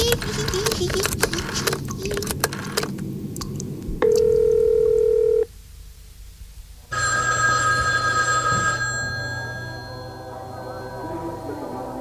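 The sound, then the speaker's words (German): Telephone tones as a call is placed: a steady, hum-like line tone lasting over a second, then, after a short gap, a longer and brighter ringing burst, with busy background noise before and after. “Ich rufe meinen besten Freund an, der holt mich raus.”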